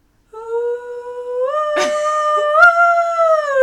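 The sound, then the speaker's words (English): A singer's voice imitates wolf howls in long, sustained, tonal wails. The pitch steps upward in a couple of places and holds loud and clear, with the voice mostly alone. “No, so she just makes wolf sounds. She just makes wolf sounds to her backing track.”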